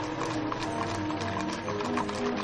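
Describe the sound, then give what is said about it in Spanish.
Clip-clop of horse hooves as a horse-drawn open carriage rolls along a town street, a steady, even clatter of hoofbeats at moderate volume. “Un carruaje recorre la calzada de la población y pasa bajo un arco entre edificios.”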